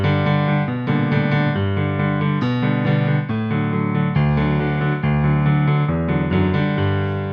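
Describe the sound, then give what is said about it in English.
Piano chords play as an accompaniment over a low bass line, filling the sound with dense, sustained chords and quick upper notes at a steady, full loudness. “Then an accompaniment with some chords over the top of it, which sounds like this.”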